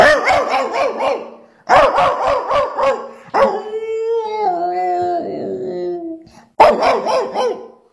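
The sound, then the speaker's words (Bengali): A dog barks on seeing another dog: quick runs of loud, sharp barks, then a long wavering howl-like whine, then another burst of rapid barks. “তখন সে আরেকটা কুকুরকে দেখলে পারে কিভাবে চিৎকার করে”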